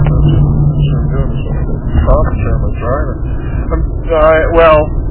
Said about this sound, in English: I'm driving home from my last trip to